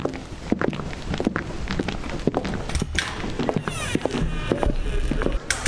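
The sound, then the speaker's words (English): Three people walk into a lobby, and their footsteps make many steady, overlapping dull taps and thuds over a constant background rumble. “Samantha Stone and Carl Simmons arrive to Simmons' as Chief Shepherd gets there, and then all three of them walk in.”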